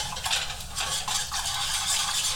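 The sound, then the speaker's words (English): A whisk stirs a butter mixture around a pot, making a continuous scraping swish with a loose, repeated rhythm of strokes at a moderate level. “But we just keep whisking away and stirring and trying to avoid all the clumpy clumpies of the butter coagulating.”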